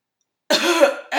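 A harsh, raspy throat clearing with a cough-like burst breaks a moment of silence, and a second rough clearing begins right after a brief pause.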